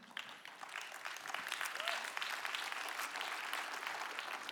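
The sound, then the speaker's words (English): Congregation clapping during a sermon at a lively church service: soft, dense applause from many hands that swells slightly after the first second and then holds steady. “you're already clapping for that.”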